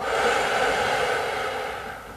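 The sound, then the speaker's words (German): A deep, slow breath during a guided relaxation exercise, heard as one long, steady, breathy hiss lasting about two seconds and softening slightly at the end, with no talking. “Wir nehmen gemeinsam einen tiefen Atemzug und atmen ein und wieder aus”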